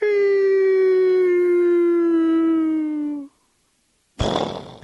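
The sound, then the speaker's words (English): A voice imitating a coyote howling as it falls into a canyon: one long, steady, tonal howl that slowly sinks in pitch for about three seconds, then a pause and a short, noisy burst. “Sometimes I like to think of Wile E. Coyote falling down in the canyon after the roadrunner's been chasing him, and he goes,”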